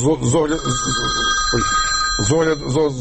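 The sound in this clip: A telephone rings with a sustained, high electronic tone lasting about two seconds, heard beneath continuous talk.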